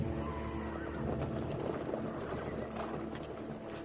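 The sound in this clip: Horses are ridden away over a hill, with hoofbeats and a whinny heard within a steady, dense wash of sound that stays at an even level throughout.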